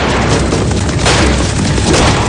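Gunfire in a 2007 western film's stagecoach shootout, with a gray-bearded man shooting from the driver's seat against mounted outlaws. Loud, dense booming blasts merge into a continuous roar of noisy action sound.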